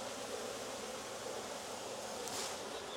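Angry honey bees buzzing as a beekeeper takes honey from their hive: a dense, steady swarm hum with a hissing texture, constant in loudness throughout.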